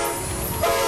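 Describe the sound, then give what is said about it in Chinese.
Horn of a China-Europe freight train departing, a brief, steady, sustained blast. “这是中欧班列出发的声音”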